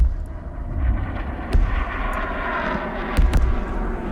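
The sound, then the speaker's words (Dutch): Rockets are fired at Ashkelon near the Gaza Strip, and most are shot down by Israel's Iron Dome missile shield. A continuous low rumbling roar is broken by a few sharper booms. “u hoorde die raketten, waarvan de meeste dus werden neergehaald door het Iron Dome raketschild van Israël.”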